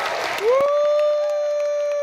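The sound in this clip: A crowd cheers and applauds Tina Peters at a church in Mesa County: a noisy burst of clapping and voices, then a long, clear held cry that rises briefly and stays steady to the end.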